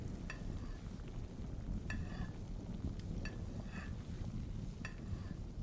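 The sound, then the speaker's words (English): A spoon stirs soup in a pot: a few faint, irregular scraping strokes over a steady soft hiss, quiet throughout with no talking. “She slowly walked through awkward silence and began to stir the soup.”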